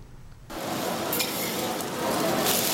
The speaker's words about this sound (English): The cook braves high temperatures as he prepares a meal on the griddle.